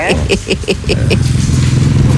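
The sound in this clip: A motorcycle passes along a street, its engine a loud, rough rumble that swells and holds steady beneath people talking.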